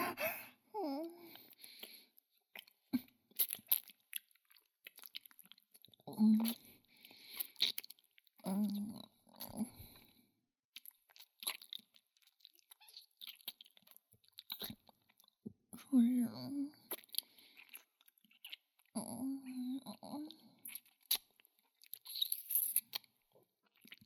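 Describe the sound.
Chewing and crunching food: many crisp bites and moist chews in irregular bursts, mixed with soft babbling vocal sounds.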